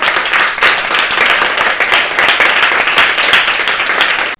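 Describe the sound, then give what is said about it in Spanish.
Studio audience applause fills the whole stretch: dense, steady clapping at a loud, even level that cuts off abruptly at the very end. “No sin antes daros un fortísimo aplauso.”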